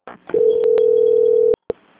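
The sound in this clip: A telephone call transfer tone sounds on a bank phone line. A brief noisy click leads into a steady, loud, mid-pitched tone lasting just over a second. It cuts off, then one short beep follows.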